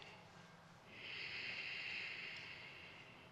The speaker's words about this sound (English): nicely, not too deep or very quickly or this, but very nicely. We inhale.